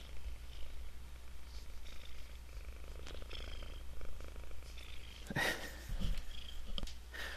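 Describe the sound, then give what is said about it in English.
A cat purrs in a soft, steady, continuous rumble that keeps an even rhythm throughout, with a brief faint sniff or rustle near the end. “Hey, it's purring.”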